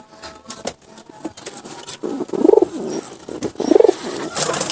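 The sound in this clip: A pigeon on its nest gives two low, soft warbling coos, spaced about a second apart. Light tapping and handling noises come before and between them as a stone dummy egg is placed.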